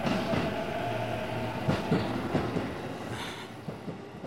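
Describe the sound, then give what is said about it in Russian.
A train pulls away from a platform with a steady rolling rumble and a few faint clacks from the wheels. No voices are heard. “Парень разочарованно смотрит на уезжающий поезд.”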